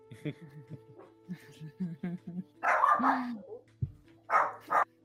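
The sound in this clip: A voice imitates a dog barking in protest, giving a few loud, rough barks mixed in with people talking.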